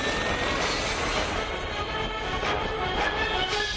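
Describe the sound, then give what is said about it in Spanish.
An airplane accelerating for takeoff: a loud, dense, continuous engine roar and rumble that holds steady throughout, with no voices. “El avión acelera.”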